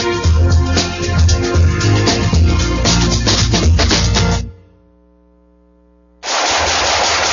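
Rapid automatic gunfire rattles in loud, dense bursts for about four seconds, then stops for a brief lull filled with a low steady hum, before another burst of shooting breaks in.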